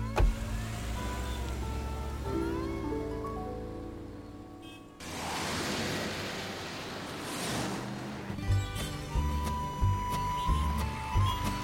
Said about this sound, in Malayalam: വണ്ടി എടുത്തോ